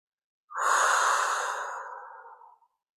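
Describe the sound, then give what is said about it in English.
A single slow, deep breath during a relaxation exercise: a soft, airy rush swells quickly, then fades gradually over about two seconds, heard alone with no talking. “with each breath, each breath you take in, you breathe out, your body relaxes more and more”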